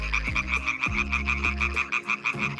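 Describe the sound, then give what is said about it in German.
Tree frogs croak in a dense chorus in the Höxter district of North Rhine-Westphalia: a rapid, steady run of pulsing, high nasal calls repeating throughout, with a low rumbling layer underneath. “Das klingt nämlich nach Laubfröschen und die gibt's leider immer seltener.”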